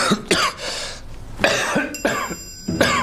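Coughing from an itchy throat: a few dry, rasping coughs with short pauses between them, loud and alone without talk.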